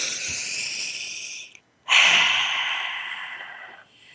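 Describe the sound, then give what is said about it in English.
A deep breath taken together during a guided talk, heard as two long, airy breathing sounds, one in and one out, separated by a short silent pause, with no talking over them. “So let's together collectively take a breath.”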